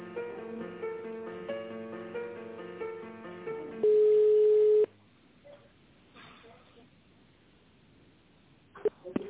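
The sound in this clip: Telephone line tones during a call transfer: a tinny hold melody plays, then one loud, steady, sustained tone of about a second cuts in. The line then drops to near silence before a few faint clicks.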